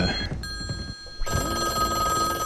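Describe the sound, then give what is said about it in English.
A telephone rings on a device built to make a phone ring and give a dial tone, a steady high electronic tone that breaks off briefly and then resumes loudly. “listen to that. That is a ringing phone.”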